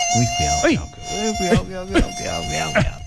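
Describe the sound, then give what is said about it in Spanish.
A mosquito's thin, whining buzz that rises and falls in pitch in quick swoops and stays fairly loud throughout. “Marín, ¿cómo así que los mosquitos son peligrosos? Hablemos de mosquitos.”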